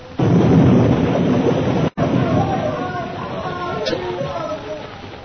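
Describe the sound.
An explosion as a plane's petrol tank blows up, giving a loud, dense roar that starts abruptly, breaks off for a moment and then continues as a sustained rumble that slowly fades.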